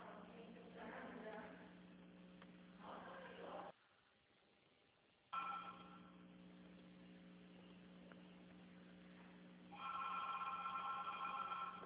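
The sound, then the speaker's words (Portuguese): A telephone ringing over the line during an outgoing call, repeated narrowband ring tones in bursts with a short silent break in the middle, while voices talk. “Eu vou ligar pra Jane agora. Vou nem esperar, não.”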